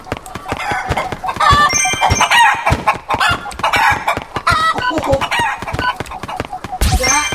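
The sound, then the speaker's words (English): Chickens cluck in a video game, many short, choppy clucks in quick, uneven succession. A louder burst comes near the end. “But, I'm not killing very many chickens.”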